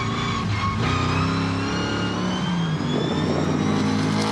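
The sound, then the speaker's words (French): A rally-prepared car's V8 engine with a modified engine and a dog-ring gearbox runs loud and steady, a rich harmonic drone that rises slightly in pitch, with no talk over it. “Tout de suite, il y a quelque chose qui m'enchante les oreilles, c'est le son du moteur V8.”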